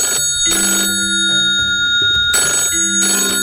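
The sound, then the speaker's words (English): A telephone rings in a few repeated bright bursts over steady sustained tones, loud and with no talking. “And that's the phone.”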